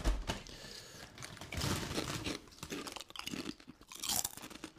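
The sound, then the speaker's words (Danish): Crunching and chewing of American Ranch flavoured snack chips, a dense, continuous run of crisp crackles and bites with several louder crunch bursts and no talk. “Er det sprød, eller hvad? De, mm, virkelig god. Super snacks. American Ranch.”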